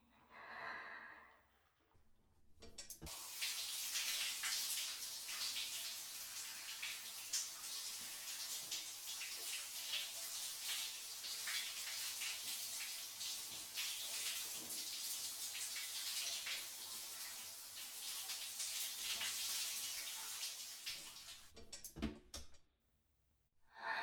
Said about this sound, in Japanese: これで綺麗になりましたよ。最後に流しますね。